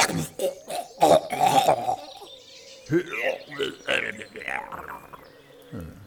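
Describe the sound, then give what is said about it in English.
Phlegmy, gurgling coughing from a person, with a few harsh, wet bursts and then a drawn-out rattling gurgle, rough and throaty. “More phlegm, sir. With a sort of gurgly death rattle at the end.”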